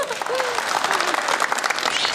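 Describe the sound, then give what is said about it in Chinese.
Audience applause at a stage show: dense, steady clapping fills the whole clip at an even level, with brief voices heard faintly over it. “给鼓掌”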